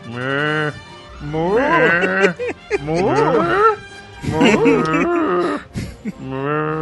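Drawn-out, wavering moo-like calls of a cow, a series of loud calls separated by short gaps, heard alone without talk.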